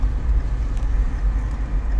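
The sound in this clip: Steady low engine and road rumble inside a moving car, a dense, even drone with faint higher hiss and no clear separate events or voices.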